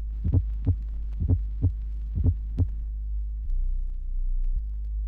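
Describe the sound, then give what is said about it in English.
Apical pulse heartbeat heard through a stethoscope placed under the left breast: three clear lub-dub pairs thump in a steady rhythm, followed by a low, steady hum and one faint soft thud. “place a stethoscope under the left breast. Count one beat for each complete lub-dub sound heard. For example, this constitutes 3 apical pulse beats.”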